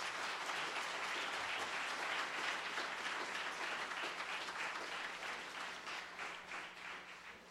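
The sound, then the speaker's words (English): An audience applauds a graduate at a Grad Sunday church service, a broad, steady clapping from many hands that holds level and then thins slightly toward the end. “Well, how about a hand for Philip this morning?”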